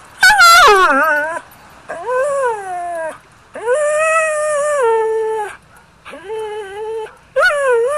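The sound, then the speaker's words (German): A 4.5-year-old long-haired collie guide dog yodels in five drawn-out, warbling howls with wavering pitch. The first starts high and slides down, and short pauses separate the calls. “Brigitta Steli, die sagt, ihr Blindenführhund ist ein 4,5-jähriger Langhaar-Colli, der kenne jodeln.”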